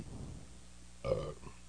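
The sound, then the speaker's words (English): A single short burp, rough and low, rising briefly out of faint background noise and lasting about a quarter second. “At least I burped away from the mic. I always burp away from the mic.”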